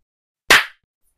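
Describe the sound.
A single sharp clap of hands, the waking cue at the end of a hypnosis session, crisp and loud, standing alone against silence.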